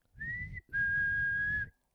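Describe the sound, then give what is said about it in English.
Two whistled tones in a prison cell. A short whistle is followed almost at once by a longer, steadier answering whistle a little lower in pitch, both loud and clear over a low rumble. “And he whistled, and the whistling answered him twice.”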